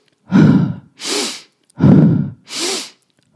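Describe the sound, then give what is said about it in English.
Two deep, deliberate breaths from a breathwork exercise, evenly paced. Each begins with a loud, rough rush of air and is followed by a softer, airier hiss, with brief pauses between and no talking. “We might also integrate some more of a continual conscious breath, but maybe with a little bit more depth to it.”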